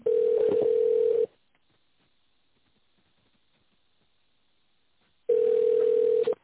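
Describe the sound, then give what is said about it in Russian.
Telephone line tone during a call transfer: a steady mid-pitched electronic tone sounds for about a second, falls silent for several seconds, then returns for another second. “Вызов переводится на секретаря.”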